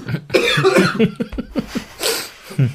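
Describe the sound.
Coughing and throat clearing from a person who says something feels stuck in the throat, a run of several loud, rough bursts separated by short gaps, with a final hard cough near the end.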